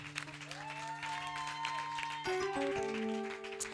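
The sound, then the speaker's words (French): Congregation applauding during a church service: a faint, continuous wash of clapping runs beneath sustained keyboard chords that shift to new notes partway through. “On va acclamer notre Seigneur Jésus-Christ.”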